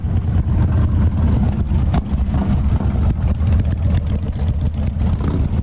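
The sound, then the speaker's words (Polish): A car engine roars as the car drives off, a loud, steady low rumble that holds without a break from start to finish, with no voices. “Pojechali z pięknym grzmotem silnika.”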